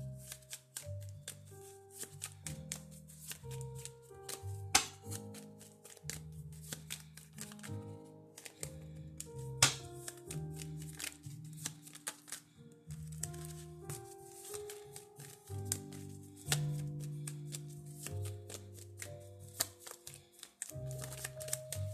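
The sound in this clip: Shuffling of an emotions card deck until a card pops out, heard as a long run of rapid soft taps, flicks and riffles, fairly quiet and with no talking.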